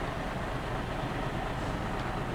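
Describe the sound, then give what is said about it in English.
A double-decker bus engine rumbles as a broad, steady roar. The noise stays even and continuous throughout, with no voices. “Doppeldecker! Ihm gefällt der Bus wohl nicht.”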